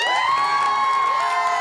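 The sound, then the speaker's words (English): A studio audience cheers and whoops in a sustained, steady burst of shouting voices, with no individual claps standing out. “And that sound you heard is our wonderful studio audience.”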